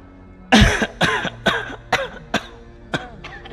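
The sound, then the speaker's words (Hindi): A person coughs in a string of throaty bursts, the first one strongest and harsh, followed by several weaker coughs spaced about half a second apart that gradually fade. “खांसी आई खांसी”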